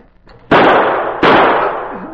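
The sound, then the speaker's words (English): Two gunshots fired in an ambush at a man opening a door: sharp, loud bangs about three quarters of a second apart, each trailing off in a long, noisy decay, with no talking. “Take good aim and shoot as soon as he opens that door.”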